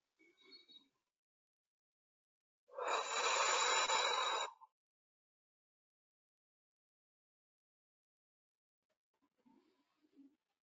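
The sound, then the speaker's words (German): A long breath blown out during a guided letting-go exercise: one sustained, loud, airy rush of exhaled air lasting about two seconds, set between stretches of near silence with only faint, soft sounds before and after. “Bei jedem Ausatmen, du pustest aus und lässt los.”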